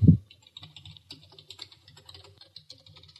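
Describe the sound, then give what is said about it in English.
Typing on a computer keyboard: after a soft thump at the start, many quick, light key clicks patter along in an uneven rhythm, faint and steady throughout. “Ugh, I can't type as fast as I used to when there's a frickin' microphone in my face.”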